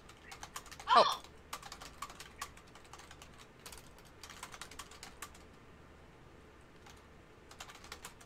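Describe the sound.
Quiet typing on a computer keyboard, many light key clicks in irregular bursts and short runs, with a single louder sound near the start.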